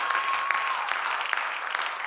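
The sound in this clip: A church audience clapping hands during a service: steady, dense applause with a few louder individual claps standing out from the mass.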